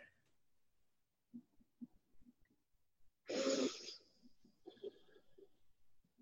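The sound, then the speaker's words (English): A deep breath in a guided emotional-release exercise, one loud, airy rush lasting under a second, set between faint, quiet speech sounds. “So now, another nice deep breath.”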